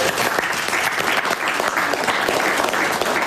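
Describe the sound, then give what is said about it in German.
A group applauds at the close of a children's reporting workshop, with dense, continuous clapping from many hands held at a steady, moderately loud level for about three seconds. “Nochmal einen Applaus für”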